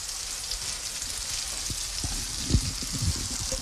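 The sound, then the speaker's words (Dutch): Warm apples with melted butter are tipped into an oven dish, giving a steady hissing sizzle broken by a couple of soft knocks near the end, with no voices. “Dus die appeltjes zijn nu warm. En ik zal die nu in mijn ovenschaal doen.”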